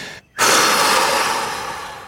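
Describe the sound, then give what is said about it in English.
A single long exhale, demonstrated as a reaction to bad news. After a brief silent pause, a loud, breathy rush of air lasts nearly two seconds and slowly fades, with no talking. “And if you get some bad news or something comes in that you're unhappy about, one of the first things you do is you do a long exhale, right?”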